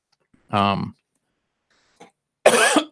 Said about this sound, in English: you have to excuse me. Getting a little bit of a dry throat here.